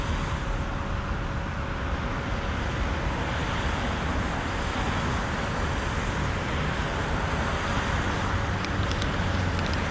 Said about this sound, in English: This could be her now. SUV driving up.